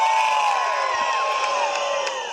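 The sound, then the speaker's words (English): Cheering from thousands of followers as Punxsutawney Phil, the groundhog, is awakened on Groundhog Day, a sustained crowd roar with scattered whoops and high shouts that eases off slightly toward the end. “Punxsutawney Phil, the seer of seers, prognosticator of all prognosticator, was awakened from his bird to the cheers of his thousands of faithful followers.”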